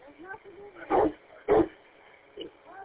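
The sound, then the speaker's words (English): A spoiled pet dog barks and whines at a bag, expecting a snack inside: two loud, sharp barks close together, then a softer third, with thin whimpering tones between them. “He's pointing at the bag with his nose and barking.”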